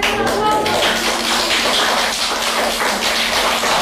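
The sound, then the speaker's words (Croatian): Applause from a class of young children at their teacher's prompt, a dense, steady patter of small hands that holds through the whole moment with no clear break. “Pa mi niste morali baš aplauz, ali...”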